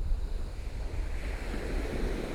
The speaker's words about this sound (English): The sea isn't mm, calm, but it's not very choppy. It's just, you know, the wind is here. And so it is kicking up a little bit.